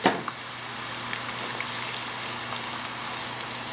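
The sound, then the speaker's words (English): Onions sizzle in a frying pan, cooking toward golden brown: a steady, even hiss with a brief pop at the very start. “So we're gonna fry these up until they're really nice and golden brown. So look at the onions here.”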